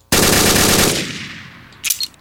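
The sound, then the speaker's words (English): Burst fire from an R15 rifle in a video game: a loud, rapid rattling volley lasting under a second that fades into a ringing tail, followed by a brief clatter. “We have an R15. Burst fire.”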